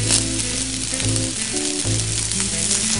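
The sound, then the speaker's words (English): Rice and vegetables fry in a hot pan, giving a steady, loud sizzle that crackles continuously throughout with no talking. “then you add in your vegetables and your rice. Flatten that out a little bit, let that cook some more.”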